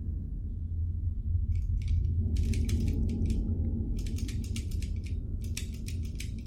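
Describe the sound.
A doorknob turning in a house at night, heard as a run of metallic clicks and rattles in several bursts over a steady low rumble, with no voices.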